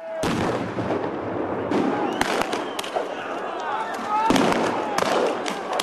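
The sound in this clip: Gunshots during anti-government protests in Kiev, Ukraine: several sharp, loud cracks burst out over a dense, continuous roar of crowd noise and voices.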